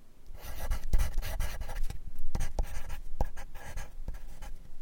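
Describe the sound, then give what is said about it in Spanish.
A ballpoint pen that is running low on ink scratches across paper in many quick, rasping strokes, coming in uneven bursts with short pauses between them, quiet and alone. “Vuelvo al papel. Mi lapicero pierde fuerza. Su tinta se rehúsa a salir.”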